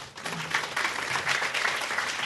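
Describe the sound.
An audience at a university lecture applauds to welcome a speaker. The clapping is dense, even and sustained at a steady moderate level throughout, with no voices standing out.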